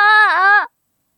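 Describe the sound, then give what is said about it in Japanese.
A lost child crying in a park: one short, loud, high wail with a slight dip in pitch partway through, cut off abruptly and followed by silence. “なんで泣いてるんだろう？え？迷子？ ママ、どこ？”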